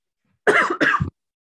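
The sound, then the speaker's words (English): A woman with COVID-19 coughs hard: two harsh, hoarse coughs in quick succession, loud and alone, then silence. “collapses into a fit of hysterical coughing due to her COVID-19 status”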